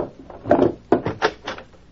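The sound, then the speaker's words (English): A desk drawer being opened: a few short scraping, knocking bursts of wood sliding, moderately loud with brief pauses between them and no voices. “It's there in the desk drawer.”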